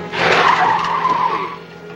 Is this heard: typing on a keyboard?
no

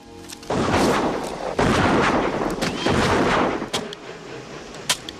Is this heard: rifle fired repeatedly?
yes

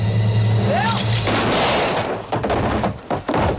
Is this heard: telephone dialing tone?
no

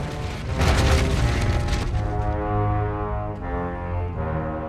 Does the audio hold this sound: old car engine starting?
no

